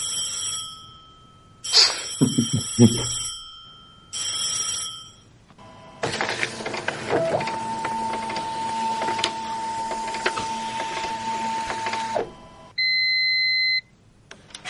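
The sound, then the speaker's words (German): A fax machine receiving a fax opens with a few electronic beeps and a warbling ringing tone, then runs a long, dense mechanical whirr with a steady high tone over it, and ends with one sustained beep. “Unser Faxgerät ist auf jeden Fall auf Empfang. Sobald sich irgendwas tun wird auf dem Transfermarkt, irgendwas live tun wird, werdet ihr dieses Geräusch hören.”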